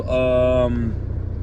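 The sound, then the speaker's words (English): A truck engine idles with a loud, low rumble that throbs steadily. A voice speaks over it at the start, then the engine continues alone. “truck is very loud, but it is what it is”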